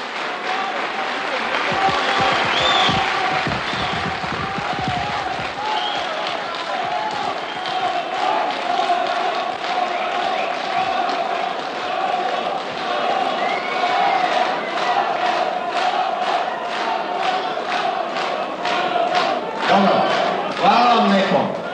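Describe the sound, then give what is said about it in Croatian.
Applause and crowd noise in an assembly hall, sustained throughout. Voices and calls run over it, and individual claps grow more distinct toward the end. “Kako vidim, molim vas, ovdje aplauz, ovaj aplauz.”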